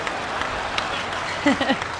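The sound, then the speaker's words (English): Parents applaud with a steady, faint patter of many hands, and a brief voice cuts in near the end. “Ultimately, those are the parents applauding.”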